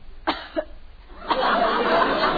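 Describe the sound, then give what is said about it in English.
Deliberately phony coughing, three short, sharp coughs spaced apart, fairly loud, followed by a stretch of continuous noisy sound. “if you start that phony coughing again”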